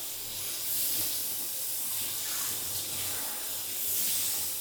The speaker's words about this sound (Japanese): ペット用シャンプーとか持ってないから、とりあえず私のシャンプーで洗うね。